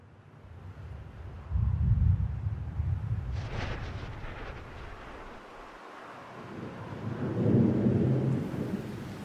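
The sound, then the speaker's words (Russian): Thunder rumbles through a rainstorm. Two deep rolling swells of thunder rise out of a soft steady hiss of rain, with a sharper crackling burst between them, all fairly quiet overall. “Начался дождь.”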